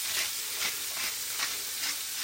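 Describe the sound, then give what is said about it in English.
Food sizzling and frying in a pan on a hob at medium heat, seasoned with paprika and salt, giving a steady hiss that swells in regular pulses as it is stirred, with no talk. “Frying this at around about number 4 on the top of the hob.”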